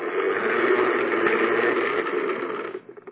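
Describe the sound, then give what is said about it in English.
A hand-cranked seed spreader being turned, giving a steady whirring, rattling mechanical grind for nearly three seconds before it winds down into a few scattered clicks. “Then you put the seed in here. And then you turn this crank.”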